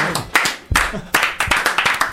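A rhythmic round of applause, a French "ban" clapped in someone's honour: loud, sharp claps falling in a steady beat and repeating many times.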